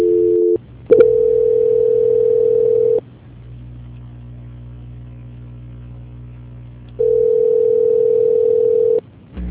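A telephone tone during a call transfer: two long, steady, loud tones separated by a stretch of quieter humming line noise.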